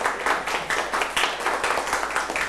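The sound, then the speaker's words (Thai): Classmates clapping for a peer: a steady round of hand claps from a small group, fairly loud and evenly paced, with no talk over it. “โอ้เยี่ยมมากค่ะปรบมือให้เพื่อนค่ะ”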